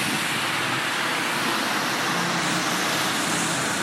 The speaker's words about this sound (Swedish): Här kommer någon åkande i en jävligt ful bil.